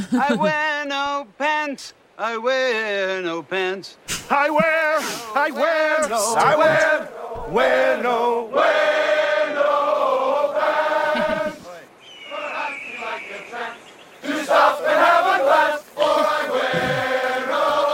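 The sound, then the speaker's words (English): A crowd chants 'I wear no pants' in a Dockers commercial: voices repeat the phrase in short, rhythmic, sung bursts with pauses between them, loud and uneven. “Were you able to hear that last one? Yeah. The I wear no pants chant? Yep. Do you know who it was? That was Dockers.”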